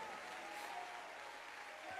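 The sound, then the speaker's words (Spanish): A church audience applauds in praise during an evangelical sermon: dense, continuous clapping from many hands, steady and even across the whole two seconds with no pause. “Dale un aplauso de victoria al Señor.”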